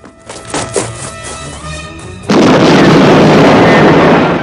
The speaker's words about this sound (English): The limousine explodes in a huge ball of fire.